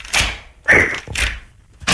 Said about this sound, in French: Voilà, donc là la porte est ouverte et là tu rentres.